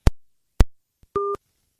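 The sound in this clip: A phone call cut off automatically by the operator after an hour: two sharp clicks, a faint tick, then one short buzzy beep of the busy tone, and silence after.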